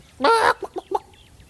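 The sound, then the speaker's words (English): A chicken gives one loud, harsh squawk, then three short, clipped clucks in quick succession, heard alone. “A chicken. Yes, sir, right here. You brought me a chicken?”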